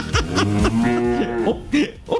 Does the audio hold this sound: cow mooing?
yes